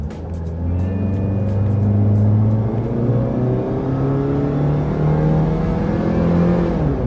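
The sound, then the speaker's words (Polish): A car engine revs hard as the driver floors the gas pedal, pulling away from traffic lights. It is a loud, sustained drone with stacked harmonic bands and no talking. “mówi Henryk, więc wciskam gaz do podłogi. Ćwiczę nogę przed drogą powrotną, bo 600 kilometrów pełnym ogniem to nie żarty.”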